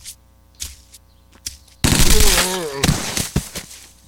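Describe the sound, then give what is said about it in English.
MP5 submachine gun fire in a video game with the weapon set to burst fire. A few short, isolated bursts come first, then a loud, dense volley of rapid shots follows. “So I'm going to rock and roll with my MP5. Burst fire. Put on burst fire. Aim up.”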